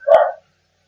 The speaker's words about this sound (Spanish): estaba el perro ladrando, yo creo que hasta con la pregunta, se estaba quejando hasta el perro